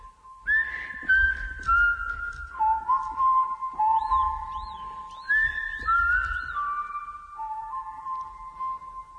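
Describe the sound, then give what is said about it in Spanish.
People whistling a melody of sustained, gliding notes, with phrases stepping down in pitch and short chirpy flourishes in between. The whistling is clear and fairly loud over a soft low rumble, with no talk during it. “Ahora sí que silbamos y los pájaros contentan.”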